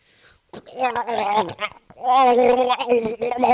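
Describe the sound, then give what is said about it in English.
A voice imitating gargling, as though someone is choking at the throat. The wet, bubbling vocal sound comes in two bursts, a shorter rattling one and then a longer, louder gurgle. “And Nazi Sasquatch, clenching at his throat, gargling,”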